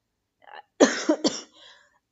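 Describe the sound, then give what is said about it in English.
A person with a lingering illness coughs in a quick run of about three harsh, loud bursts, with softer throaty sounds just before and after. “it's like I'm coughing way more than I usually do, and I'm not sure why is that.”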